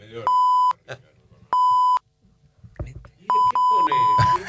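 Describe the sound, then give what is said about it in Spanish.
Bright electronic beeps of a radio time signal marking 1:30 pm: steady, identical pips separated by gaps, the last few coming closer together, with voices talking briefly in the pauses. “va a sonar el top de la 1:30 de la tarde”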